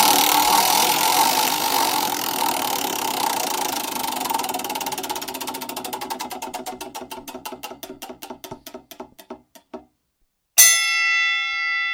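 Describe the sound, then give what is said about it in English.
A prize wheel spins at a beer tasting, its rapid clicking slowing into widely spaced ticks until it stops, then a bright ringing chime sounds; no one talks. “All right, let's spin the wheel here and figure out who's going to pick first.”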